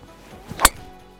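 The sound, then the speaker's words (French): A golf tee shot played with a fade on a links course: one crisp, sharp strike of club on ball stands alone against a quiet background. “belle mise en jeu avec le petit fade en plus, qui est le petit côté bonus parce que ça raccourcit le deuxième coup”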